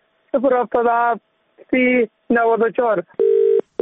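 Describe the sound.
A telephone line tone sounds as a single steady electronic beep at the end, after a few bursts of a man speaking Dari or Persian as he places a call.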